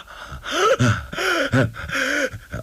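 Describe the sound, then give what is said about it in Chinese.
A human voice imitates heavy, open-mouthed panting in a dramatic story scene, with several strained, voiced gasping breaths in quick succession, each rising and falling in pitch. “雷春这脸色也变了，张着大嘴直喘气”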